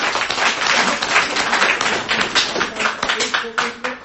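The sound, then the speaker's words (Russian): An audience applauds at the close of a Q&A session, a dense, steady patter of many claps with a voice briefly heard over it near the end. “Давайте еще раз похлопаем.”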